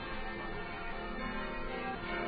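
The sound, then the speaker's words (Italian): Church bells ring softly and continuously, a dense, steady wash of overlapping metallic tones with no clearly separate strikes. “Che bello, ci sono anche le campane che segnano la gioia di tutti i cristiani e quindi anche la nostra.”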